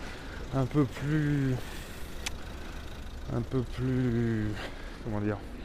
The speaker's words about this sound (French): Parce que là, j'entends le bruit des bus, des voitures.